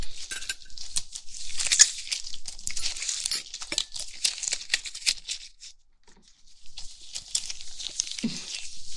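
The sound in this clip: Wet, crinkly tearing as a belly is pulled open with both hands, gripping each side and ripping outward. Many quick crackling and ripping bursts run almost throughout, with a brief pause before the tearing resumes.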